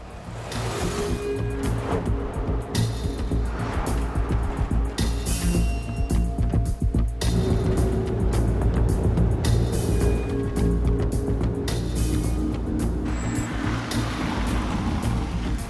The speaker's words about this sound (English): He is now back out on the Autobahn, passing under signs for Berlin.